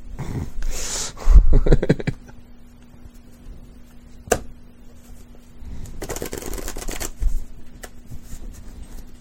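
A deck of playing cards is shuffled, with crisp riffling and flapping in two separate bursts divided by a quieter stretch that holds a single sharp tap.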